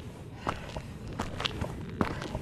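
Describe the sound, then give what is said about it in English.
Footsteps of people hiking on a trail at the Portuguese Bend Reserve on the Palos Verdes Peninsula, several soft crunching steps in an uneven rhythm, fairly faint against light background noise. “Let's start this new year with a hike. We're at the Portuguese Bend Reserve on the southwest side of the Palos Verdes Peninsula.”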